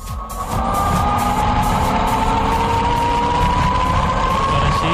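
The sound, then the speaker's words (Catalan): Loud roar of an ultra-fast land speed record vehicle on a salt flat, clocked at 744 km/h. A dense, steady engine roar holds throughout, with a sustained tone slowly rising in pitch and no voices. “Sona així aquest vehicle ultraràpid a un desert de sal, un rècord que va molt més enllà de la velocitat que podria agafar un Fórmula 1.”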